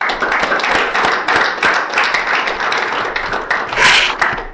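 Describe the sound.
Audience applause at a recovery meeting welcoming a speaker: steady, dense clapping from many hands throughout, swelling a little near the end.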